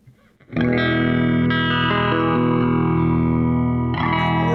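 Electric guitar played through a vintage Electro-Harmonix Electric Mistress flanger pedal with all knobs turned down: a distorted chord rings out and sustains with a subtle, slow shimmer, then a second strum comes near the end.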